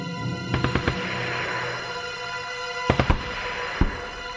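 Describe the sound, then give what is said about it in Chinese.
Gunshots ring out as a train crossing open plains comes under attack. A few sharp, loud cracks come in short clusters over a steady background drone. “经过麦克佛逊碉堡，火车进入了一望无际的平原。这时候突然听到了枪声，”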